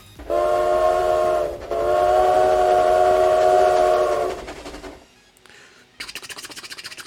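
Train horn blaring over rumbling rail noise: a loud, sustained harmonic blast in two parts, then a quieter pause and a rapid rhythmic clatter of wheels on track.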